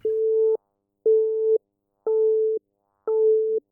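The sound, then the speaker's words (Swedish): Telephone line tone on a call that goes unanswered on a dead line: four even beeps at a steady pitch, each about half a second long and separated by equal gaps of silence. “Får inget svar. Linjen är, död.”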